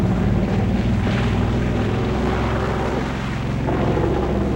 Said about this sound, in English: The plane climbs gradually as it soars over a patchwork of forests and fields.